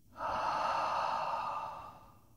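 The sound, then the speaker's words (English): A soft breath sighed out through the mouth during a guided relaxation breathing exercise: one breathy rush that swells quickly, holds, then slowly fades over about two seconds, fairly faint and with no voices. “and sigh from your mouth. Again, breathe it in and let it go.”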